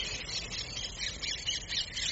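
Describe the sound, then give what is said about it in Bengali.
Birds calling from inside large garden trees at dusk, a continuous dense chatter of high chirps and squawks with no single call standing out, steady throughout. “বড় বড় গাছের বুকের ভেতর থেকে ভেসে আসছে পাখিদের বেলা শেষের কলরব।”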